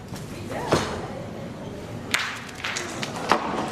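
Sharp, crisp clacks of a pétanque boule strike during a match, a few distinct impacts standing out above a steady background murmur.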